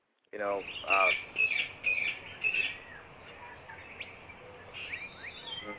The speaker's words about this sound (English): Apparently there's birds in here. Let's just ignore them birds.